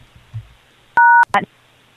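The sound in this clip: A telephone keypad tone as the pound key is pressed on a phone voicemail system: a single steady dual-pitched beep lasting about a quarter second, with faint sounds before it and a brief voice sound right after.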